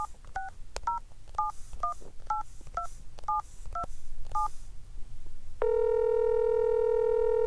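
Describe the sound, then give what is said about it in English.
Telephone keypad dialing tones: a quick string of short, evenly spaced two-tone beeps, followed by a loud, steady, continuous line tone that holds to the end. “I dialed the number again.”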